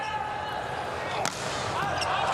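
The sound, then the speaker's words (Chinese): A hard volleyball jump serve struck by Wang Bin in a China national team match gives one sharp slap of the hand on the ball, rising briefly above a steady roar of crowd noise. “王斌大力跳发，”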